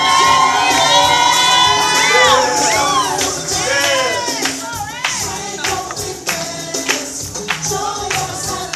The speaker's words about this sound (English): If you got the blessing of Abraham on your life, do me a favor, make some noise.